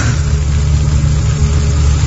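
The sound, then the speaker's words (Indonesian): A motorcycle engine idles while warming up after being started, giving a steady, low, throbbing hum that holds an even loudness throughout with no revving. “Aku panaskan motorku sejenak. Dan ketika aku sedang memanaskan motor, tiba-tiba,”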